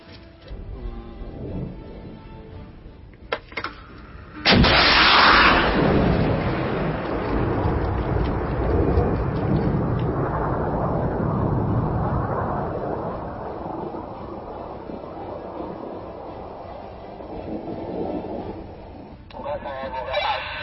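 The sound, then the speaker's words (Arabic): Weapons fire striking an enemy tank: a few sharp cracks, then a sudden loud blast a few seconds in, followed by a long rolling roar that slowly settles, with a voice heard at times. “دبابة العدو السعودي الصهيوني الأمريكي تتمركز هناك أمام قلة أبو نور، وسوف يتم استهدافها الآن بإذن الله.”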